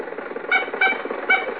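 A car engine runs steadily while the car drives, with Rochester at the wheel, a continuous mid-pitched rumble topped by three brief squeaky tonal bursts.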